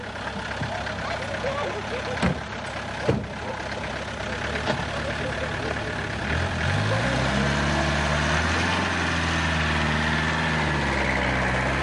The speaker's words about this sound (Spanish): Suben al coche y continúan su camino.